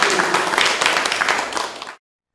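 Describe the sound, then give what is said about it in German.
Audience applause rings out as dense, steady clapping from many hands, holding loud and even for about two seconds before stopping abruptly. “Und ich denke, da können wir vielleicht auch dafür nochmal einen Beifall spenden.”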